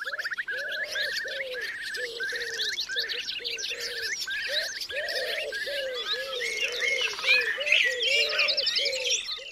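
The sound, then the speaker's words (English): A dense chorus of wild bird calls recorded in the late 1990s, said to include a woodpecker and a pigeon. A steady run of repeated call notes sounds beneath many overlapping chirps and trills, loud and continuous throughout. “Could you get a couple of them? Woodpecker? And a pigeon. Definitely heard a pigeon there.”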